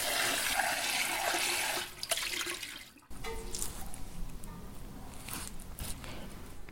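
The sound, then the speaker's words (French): Cold running tap water rinses tomatoes for gazpacho: a steady, broad splashing rush that dips briefly partway through, then resumes and continues evenly to the end, with no voices. “Les tomates en fait, je vais peut-être les sortir maintenant parce que elles mettent du temps à refroidir. Je vais les passer un petit coup sous l'eau froide.”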